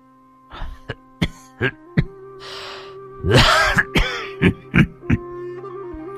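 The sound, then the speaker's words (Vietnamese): An old man coughs hoarsely in a rock cave, in a long ragged fit of short harsh bursts with a rougher, throat-clearing stretch in the middle. “Lão Sâm ho khổ khổ.”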